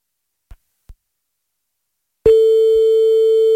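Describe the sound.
A steady single-pitch telephone line tone sounds while a call is placed. Two faint clicks come first, then the tone starts abruptly and holds unbroken to the end. No voices.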